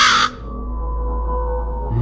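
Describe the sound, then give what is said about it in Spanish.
A single loud, harsh raven caw opens the sound, followed by a steady low hum that continues alone until the end. “Y el cuervo dijo,”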